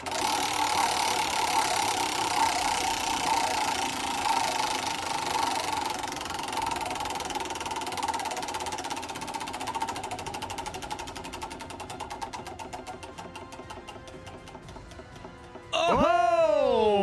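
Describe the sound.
Ratcheting clicks of a prize wheel spun on a game show to choose a topic, ticking rapidly at first and then spacing out as the wheel slows, with a voice starting right at the end.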